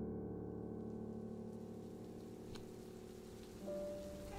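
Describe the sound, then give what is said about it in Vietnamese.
Light spring drizzle falls at night, a soft, even patter of rain that stays faint and steady throughout over a low, constant hum. “Tiết trời mưa phùn lâm thâm đầu xuân khiến cho khung cảnh ban đêm ở làng Bắc Biên càng thêm quỷ dị.”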